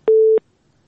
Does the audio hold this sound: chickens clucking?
no